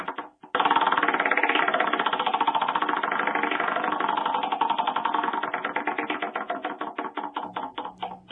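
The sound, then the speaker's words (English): A prize wheel spinning at a poker tournament: a dense, rapid rattle of clicks at first, whose ticks gradually space out and slow toward the end, with no talk. “let's spin the wheel”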